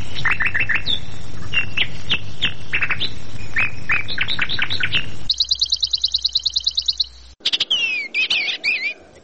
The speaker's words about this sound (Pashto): دا مرغه د خپل څښتن په غوښتنه یوه داسې سندره غږوي چې بل څوک یې له اورېدو سره سم ویده کیږي.